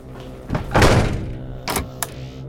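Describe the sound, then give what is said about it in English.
A heavy bomb is set down by the creatures carrying it. One dull, weighty thunk with a lingering low rumble is followed by a couple of sharper knocks. “They carry it to me and set it down.”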